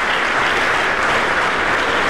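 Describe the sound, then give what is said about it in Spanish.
A church audience gives a round of applause, a thick, loud, unbroken roar of clapping hands that stays level throughout. “Denle un aplauso al Rey de la Gloria.”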